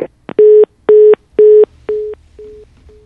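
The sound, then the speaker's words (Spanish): Telephone line tones sound after a call drops: a brief click, then six evenly spaced, steady mid-pitched beeps, the last ones growing noticeably fainter. “se nos cortó la llamada, estamos conversando con Jorge Domínguez, vamos a tratar de restablecer la comunicación”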